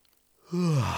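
A drawn-out, breathy yawn rises out of near silence and holds as a sustained voiced tone, moderately loud and alone with no talk.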